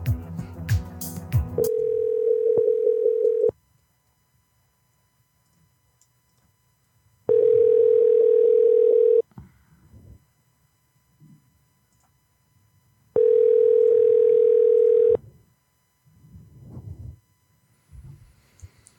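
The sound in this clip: Ringback tone on an outgoing telephone call: three steady two-second tones separated by longer silences, after a short burst of noise at the start.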